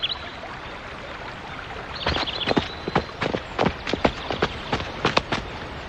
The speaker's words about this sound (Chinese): 你看那是咱们的马吗？